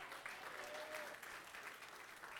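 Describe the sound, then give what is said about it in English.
A church audience claps hands in praise, a continuous, fairly faint wash of many hands clapping, with a brief voice audible over it near the start. “Will you give him a hand clap of praise?”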